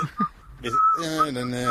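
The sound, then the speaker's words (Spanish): A person whistles a few short, high, clear notes. A man's voice starts talking partway through, and the whistling continues over the talk. “¿Pero quién está silbando?”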